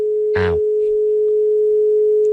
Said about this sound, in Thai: สายหลุดไปนะครับไม่เป็นไรนะครับ